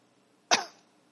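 A single short cough breaks the quiet, with a sharp burst at the start that fades quickly.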